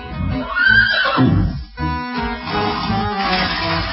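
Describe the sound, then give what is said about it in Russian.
A horse neighing as it is carried out into a garden for riding: a loud, drawn-out whinny, followed by further harmonic neighing calls, with no voices. “Затем Пеппи вынесла лошадь в сад, и Пеппи с Томми стали кататься верхом.”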